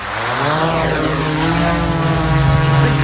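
A small drone takes off with a steady, loud propeller buzz, a dense whirring whine whose pitch climbs briefly at the start before holding level.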